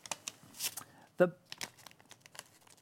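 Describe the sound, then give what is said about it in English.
A paper bill crinkles and rustles as a pencil is pushed through it in a magic trick. There are short, crackly rustles, with one sharper crinkling burst midway and lighter papery ticks after it. “the pencil really doesn't tear the bill in half. It more melts through.”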